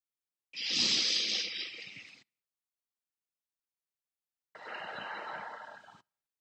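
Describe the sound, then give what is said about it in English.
Deep breaths taken during a guided breathing exercise: two long, airy breaths separated by a few seconds of silence, the first louder and slightly longer than the second. “let's do three more deep breaths together and just see where you feel it and how it makes you feel.”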